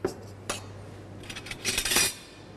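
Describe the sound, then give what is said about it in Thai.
A spoon clinks against dishware as fish sauce is added to a spicy salad, three spoonfuls in all. A few light clinks come first, then a denser, louder run of bright metallic taps near the end. “เริ่มจากนะครับน้ำปลานะครับวันนี้เราใส่เรายำค่อนข้างเยอะเราจะใส่3ช้อนนะครับ”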